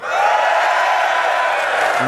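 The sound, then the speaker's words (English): A crowd at a Focus Ireland charity event cheers for Clare in a straw poll ahead of a Clare versus Cork match, a loud, sustained roar with whoops that holds steady for the whole clip. “can we get a straw poll here with a cheer? Who thinks Clare is going to win?”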